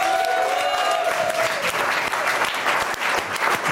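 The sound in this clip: Applause from a studio audience at a French talk show, a dense, steady wash of clapping that holds at an even loudness for the whole stretch, with no voices over it.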